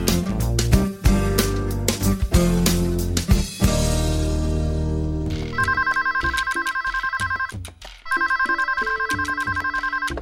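A telephone rings on an outgoing toll-free call to a helpline for pregnant women in Veracruz. In the second half come two long, evenly pulsing trilling rings separated by a short gap.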